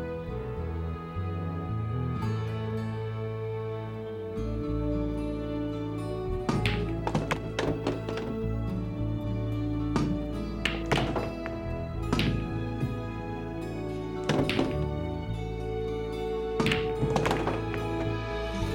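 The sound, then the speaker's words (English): Pool balls clack together during billiard shots, several balls moving at once and the eight ball going into a pocket. Short clusters of sharp clicks and knocks come a few times over a steady sustained tonal background. “Some pretty tricky shots in this footage here too. It's like not just one ball, two or three. Eight ball in that pocket.”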